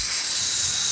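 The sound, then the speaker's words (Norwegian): A steak sizzles on a charcoal grill, a loud, steady, bright hiss of fat and juices that holds constant throughout without pauses. “Det er lyden av en god kottebøff på en kølgrill.”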